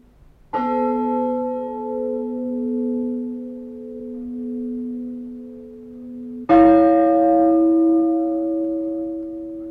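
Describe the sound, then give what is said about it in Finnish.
A bronze church bell from the era of Gustav Adolf rings for Saturday evening peace. Two separate strikes sound, each with a long, humming, harmonic ring-out, and the second strike is louder and brighter. “Gustav Adolfin aikaisen vaskikellon ääni kantaa kauas vesien yli. Lauantaisin sen harvat lyönnit julistavat ehtoorauhaa.”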